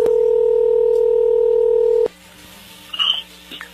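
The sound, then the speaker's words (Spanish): A telephone call is being placed, starting with a loud, steady dual-pitched touch tone that holds for about two seconds and then cuts off. A quiet line follows, with a few short, faint electronic beeps. “A ver, ya entró ahí la llamada, vamos a ver si Adelina”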